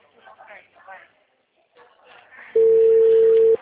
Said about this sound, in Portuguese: Tá tocando aqui.